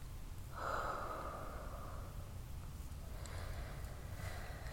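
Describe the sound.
A single long breath exhaled through the mouth during a guided tantric breathing meditation: a soft, airy rush lasting about a second and a half, then fading into a low steady background hum with no voices.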